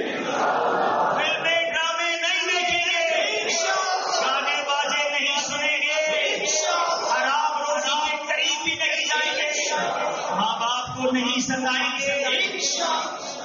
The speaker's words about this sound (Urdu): ایسا نعرہ بلند کرو کہ یہاں سے شیطان ہی دور بھاگ جائے, آج کے بعد ہماری کوئی نماز قضا نہیں ہوگی